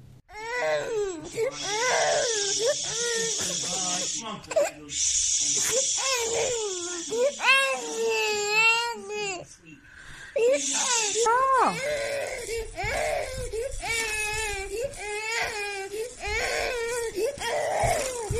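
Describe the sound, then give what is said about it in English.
A distressed, overheated baby cries and wails in repeated, harmonic sobs over many seconds, while an adult voice talks and tries to shush him. “and he's crying, and he's getting hot, and he's absolutely miserable, and his mother keeps trying to shush him, his foster mother. We're going to play it now, and you all decide for yourself.”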